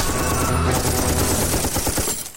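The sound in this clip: Rifle gunfire used as a sound effect rattles in a dense, continuous volley, many shots blurring together at a steady, loud level over a heavy low rumble.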